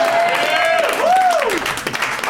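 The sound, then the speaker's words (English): Loud audience applause and cheering for a mention of the film Con Air, a dense, even wash of clapping with a voice whooping in a rising and falling arc partway through. “And also realizing saying Con Air into a microphone got more applause than any joke I've ever written.”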